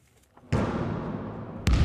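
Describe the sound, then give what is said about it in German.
Two heavy thuds from a basketball bouncing during a quick game among army reservists, each striking sharply and followed by a sustained, fairly loud wash of noise, the second impact coming just over a second after the first. “Einige spielen noch schnell Basketball.”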